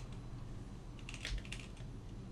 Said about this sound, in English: Just type Mushu Mulan.